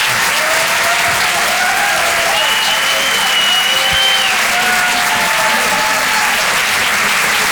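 Loud, dense applause fills a comedy club as the audience claps steadily, with scattered cheers and whoops over the top.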